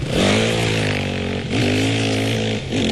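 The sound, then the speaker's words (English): Engine of an unregistered dirt bike in the suburbs, a buzzing, harmonic motorcycle drone with a couple of short revs that briefly lift the pitch. “Unregistered dirt bikes have been a scourge in the suburbs for quite a while now, yes, right?”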